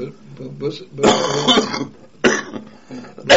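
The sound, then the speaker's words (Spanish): A few harsh coughs and throat-clearing bursts, loud and rasping, come from a person in a conversation, one long fit in the middle and shorter ones after, mixed with stretches of voice. “Perdón por la tos.”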